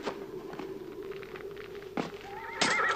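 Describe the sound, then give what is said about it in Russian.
A horse whinnies among hoofbeats as a White Army commander mounts and rides off in a dramatized scene; scattered thudding hoof strikes run throughout, and a loud, high neigh comes near the end. “Садится на коня и уезжает.”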